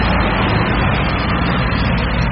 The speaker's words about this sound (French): La première colonne arrive, les camions se garent sur le parking de la salle des sports.